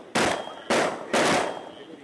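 Three loud, high-powered rifle shots are fired at a wild hog in a field. Each is a sharp crack with a decaying tail, spaced about half a second apart.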